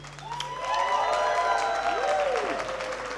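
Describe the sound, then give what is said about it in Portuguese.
An audience at a live music event applauds and cheers, with clapping and raised voices swelling early and then holding fairly steady. “aplauso para usted, gente linda.”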